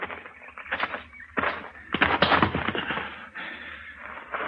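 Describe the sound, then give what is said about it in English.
Gunshots ring out in a Western scene: a few sharp, loud reports with short ringing tails, spread unevenly across the moment, among rougher rattling bursts of noise. “I just shot that Yankee sodbuster.”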